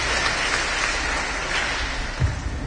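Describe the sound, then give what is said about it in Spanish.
Loud, dense applause from an audience, a steady wash of clapping throughout with one brief low thump near the end. “hay unos fuertes aplausos”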